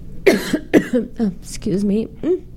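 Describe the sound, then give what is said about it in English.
Harsh coughing in a sudden coughing attack: a few rough, breathy bursts, each trailing into a voiced, throaty sound, loud and close together. “inopportune time to have a coughing attack. Let me just have a sip of water.”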